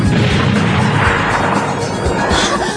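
A football kicked through a smoke screen, hitting someone in an animated scene: a loud, dense crashing burst of rushing noise that stays strong for nearly three seconds.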